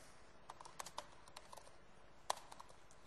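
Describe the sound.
Computer keyboard typing as notes are entered into an order request: many faint, irregular key clicks with one sharper, louder stroke near the end, and no voices.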